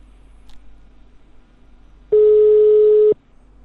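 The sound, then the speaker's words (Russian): A telephone line tone sounds while a number is dialed: one steady, mid-pitched beep lasting about a second, heard alone over faint hiss. “Так, я сейчас попробую в Росденьги набрать.”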